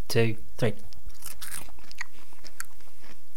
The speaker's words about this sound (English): I'm not happy to eat it, okay. But I'm going to eat it. So my one looks like... Yeah, you see, you wouldn't know that was an insect. Oh, no, it has got eyes and wings.